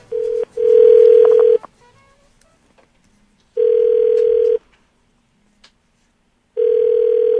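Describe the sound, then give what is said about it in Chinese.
A telephone call being placed to a doctor's clinic: a dial tone, then a brief run of faint dialing tones, then ringback tones sounding in evenly spaced, one-second pulses separated by long silent gaps. “我们要打给林爸爸，林医生。”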